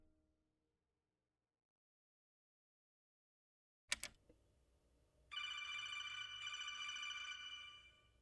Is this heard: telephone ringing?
yes

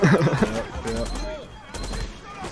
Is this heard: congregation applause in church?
no

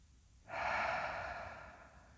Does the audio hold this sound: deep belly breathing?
yes

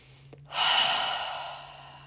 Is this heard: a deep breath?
yes

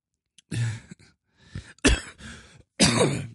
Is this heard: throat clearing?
yes

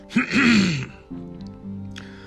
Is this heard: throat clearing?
yes

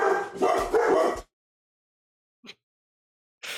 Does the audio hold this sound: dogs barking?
yes

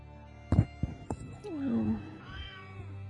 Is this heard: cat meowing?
yes

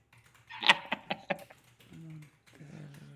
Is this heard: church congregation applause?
no

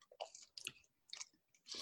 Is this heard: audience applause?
no

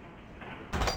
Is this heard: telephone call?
no

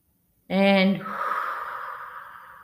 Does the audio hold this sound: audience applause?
no

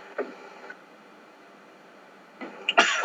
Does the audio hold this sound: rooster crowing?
no

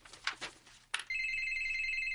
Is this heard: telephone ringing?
yes

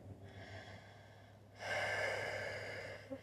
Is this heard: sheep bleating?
no

